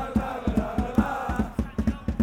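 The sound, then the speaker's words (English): Drumming by Arsenal supporters of the Ashburton Army at the Emirates: deep, booming drum beats struck in a steady, driving rhythm, many evenly spaced hits over a faint crowd murmur. “Now, listen and get used to that drumming.”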